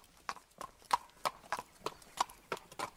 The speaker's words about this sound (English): But then, in the distance, he hears hoofsteps coming his way.